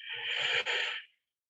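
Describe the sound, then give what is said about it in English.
One deep breath drawn in through the nose during a breathing exercise, a smooth airy hiss lasting about a second that stops cleanly, with nothing else around it. “we're going to breathe through the nose, breathe through the nose now.”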